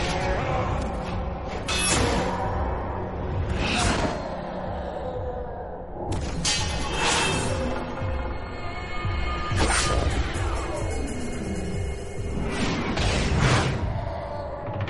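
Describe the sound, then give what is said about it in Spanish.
Sword blows clash in a battle from the film 300: several loud, sharp strikes and swishes stand out from a dense, rumbling din of fighting. “Saca la espada del cincho y se defiende con golpes de acero.”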